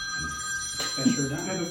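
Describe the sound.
A telephone rings with a steady, high electronic tone that holds through the whole moment while people talk over it.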